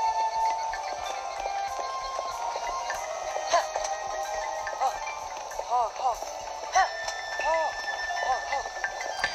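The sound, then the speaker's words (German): Horse hooves clip-clop steadily as a horse is ridden, an even rhythmic patter set against a busy, continuous background. “So, dann reiten wir jetzt nach Atheno.”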